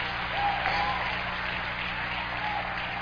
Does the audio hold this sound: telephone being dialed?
no